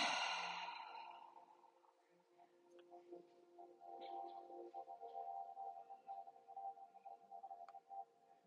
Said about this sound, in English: Breathe in and out.